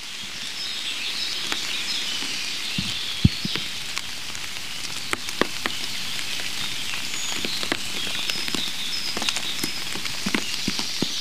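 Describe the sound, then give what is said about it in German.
Water drops fall in many irregular, sharp little taps and plinks, scattered unevenly over a soft, steady background hiss, some drips louder than others. “Und natürlich Wassertropfen.”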